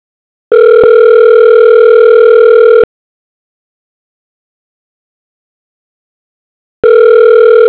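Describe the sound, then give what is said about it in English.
Ringback tone on a business phone line: two long, steady electronic buzzing tones separated by a silent gap, loud and alone. “If you know your party's extension, please dial now or press 0 to reach the operator.”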